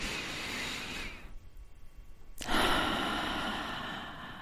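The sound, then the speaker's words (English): A deep breath drawn in, a soft, airy rush of breath noise that swells and holds, with no talking. “Take a deep breath in”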